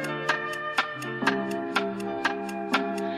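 A clock ticks steadily, with seven crisp clicks about half a second apart over a sustained musical tone that continues throughout.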